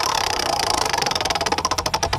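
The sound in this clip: Rapid ratcheting clicks of a prize dial spinning to draw a competition number, a loud, steady stream of many evenly spaced ticks with no voices.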